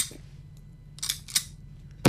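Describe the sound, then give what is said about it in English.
A gun's trigger pulled without firing, demonstrated for a jury in court, gives a few dry metallic clicks spaced apart over a quiet background, with no shot following. “So at one point, Rubin used the gun to pull the trigger so that the jury could hear the same clicks that Angel heard, and it didn't fire the two times, like this.”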